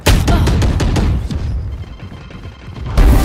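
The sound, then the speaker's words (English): Booming blasts and rapid gunfire in the video game Valorant, a loud, dense burst of sharp shots and explosions for over a second, then a quieter lull before another loud blast at the end. “Oh! Shoot! Grenade!”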